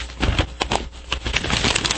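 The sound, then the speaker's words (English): Paper is moved around and shuffled, giving a quick run of crisp, loud rustling bursts with no voices. “Sorry. Lots of moving the paper around.”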